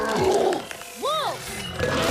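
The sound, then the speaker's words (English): Wolves snarl in a short burst of harsh, rasping growls, with a rising-and-falling whine in the middle. “The wolves snarl.”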